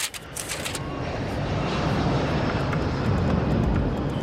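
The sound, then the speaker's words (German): An airplane is in flight, heard as a steady broad engine roar. The loud, dense noise holds nearly constant throughout, with no talk. “Aber wir fliegen nicht nach Faltitschen, Rumänien. Keine Angst, wir sind nicht hier unterwegs auf einer jüdischen Mutter- und Sohnwurzelsuch. Wir fliegen nach Berlin.”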